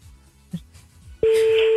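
An outgoing telephone call's ringing tone starts abruptly after a short stretch of faint rustling and then holds as a loud, steady, even tone to the end.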